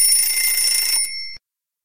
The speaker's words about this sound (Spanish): suena el despertador.